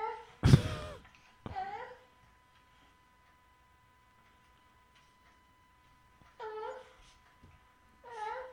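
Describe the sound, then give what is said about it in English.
A baby babbles in a crib with a few short, high, warbling vocal bursts separated by long near-silent gaps. A brief loud noise comes near the start, and a faint steady tone runs underneath. “That sounds weird. I know... It's a baby in a crib.”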